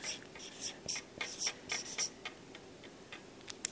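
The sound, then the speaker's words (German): Handwriting a single word: many short, scratchy strokes in quick, uneven succession, followed by a quiet pause and one last faint stroke near the end. “Ich schreibe jetzt mal Mission.”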